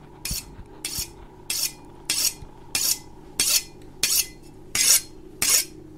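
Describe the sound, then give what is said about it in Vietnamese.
A knife is sharpened in a kitchen with nine evenly spaced, rasping scrapes at a steady rhythm. Each stroke is loud and bright, and a low steady hum runs underneath without any voices. “Cùng lúc ấy, ở dưới gian bếp, loáng thoáng đâu đây, trong tiếng gió thổi vi vút thì có tiếng mài dao vẫn cứ vang lên xoèn xoẹt, nghe đến giận cả người.”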